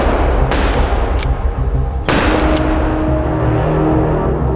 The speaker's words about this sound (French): L'agresseur sort un pistolet de sa poche et tire à trois reprises.